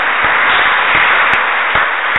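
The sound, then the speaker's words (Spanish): Congregation applauding during a Catholic mass: a dense, steady wash of clapping that fills the whole clip, with a few sharper individual claps standing out from the mass. “Un aplauso al Señor, pero claro, un aplauso al Señor.”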